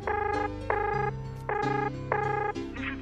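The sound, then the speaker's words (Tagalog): Telephone ringback tone while calling a coworker: four bright electronic tone bursts of equal length sound in a steady, even rhythm, alone and fairly loud. “Ay, teka, try ko na nga tumawag sa office mate ko. Sana naman sumagot tong isang to. Please, please, sumagot ka na.”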